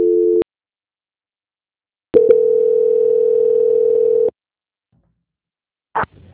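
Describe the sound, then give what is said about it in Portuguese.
Telephone line tones during a call transfer: a short steady tone, then silence, then a single longer, even tone lasting about two seconds, followed by a brief burst of sound near the end. “Oi, Ivana, só um instante. Ah, transferência.”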